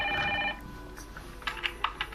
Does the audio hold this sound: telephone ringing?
yes

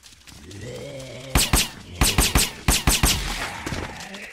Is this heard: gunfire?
yes

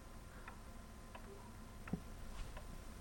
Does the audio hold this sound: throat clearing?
no

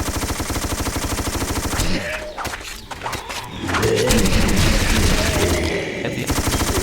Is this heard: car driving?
no

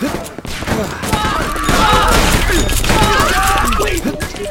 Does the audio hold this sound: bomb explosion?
yes

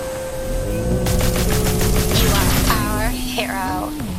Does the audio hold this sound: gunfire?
yes

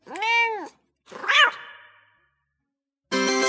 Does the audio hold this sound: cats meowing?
yes

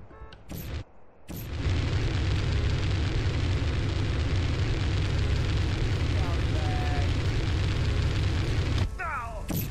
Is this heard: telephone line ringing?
no

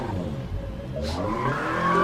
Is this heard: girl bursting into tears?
no

